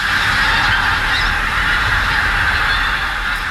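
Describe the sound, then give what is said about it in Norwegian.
Large flocks of pink-footed geese honk near a rural village in Trøndelag, Norway, forming a dense, continuous chorus of overlapping calls that stays loud and steady, with no pauses or voices. “dette er lyden av store flokker med kortnebbgås som nå oppholder seg i bygda Beitstad i Trøndelag.”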